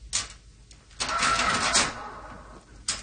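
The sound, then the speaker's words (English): Mechanical clatter of a historical cash register: a few short clacks, then a sustained grinding rattle of about a second, ending with one more sharp clack, moderately loud and without voices. “there's a special historical cash register. It's historical.”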